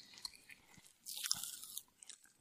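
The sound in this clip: Someone chews a mouthful of Pop Rocks candy, making faint, irregular crunching and crackling with a denser, louder burst of crackles in the middle.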